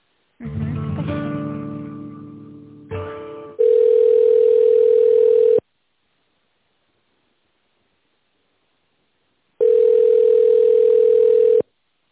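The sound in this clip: Telephone tones while a call is put through: a brief harmonic sound, then two long, steady single-pitch beeps separated by a long silence.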